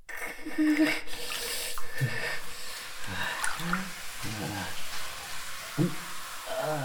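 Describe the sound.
Hot water runs into a bath as a steady rushing hiss with faint splashes and drips, while people talk over it.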